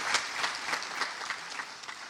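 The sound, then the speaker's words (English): An audience gives a round of applause at the close of a live question-and-answer event with a guest, a bright, dense wash of many hands clapping at a steady, moderate level. “I think we can do a round of applause now. And we're clapping.”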